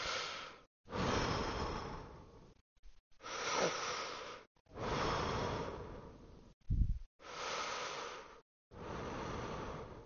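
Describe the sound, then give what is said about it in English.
Slow, deep breaths taken one after another, long airy inhales and exhales separated by short silences, with a brief sniff partway through and no talking. “I'm going to take my 3 deep breaths, which might take longer or a shorter period of time than yours.”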